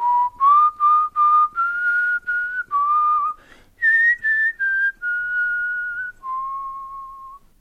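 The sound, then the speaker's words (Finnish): A man whistles cheerfully as he walks in. A clear, bright tune plays alone: a run of short, evenly spaced notes, then a few longer held tones at steady pitch. “kun samassa sutenööri Jim saapui iloisesti vihellellen sisään”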